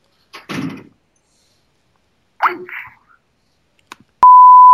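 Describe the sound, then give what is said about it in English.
A steady, single-pitched electronic beep sounds while a group call is being dialed. It is preceded by a few faint short sounds and sustains unbroken to the end. “Oh, we can get Amy on the call. Let's see. Add the group call.”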